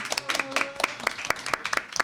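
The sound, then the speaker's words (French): An audience at an evening event gives scattered applause, many sharp separate handclaps in an irregular rhythm rather than a dense roar. “Oh là là, on l'applaudit pour sa première fois.”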